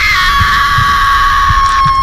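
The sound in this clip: A loud, sustained, high-pitched human scream of terror, held steady for about two seconds over faint low throbbing.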